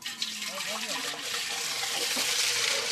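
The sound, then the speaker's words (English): About 20 litres of fresh milk pour through muslin cloth into a cauldron below at a sheepfold, a continuous rushing, splashing liquid stream that stays steady and full for the whole stretch. “this is the sound of me pouring 20 litres of milk through the muslin and into the cauldron below”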